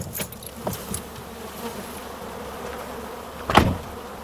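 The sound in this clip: Bees buzz among almond trees in a steady, continuous drone of many insects, with one brief louder burst near the end.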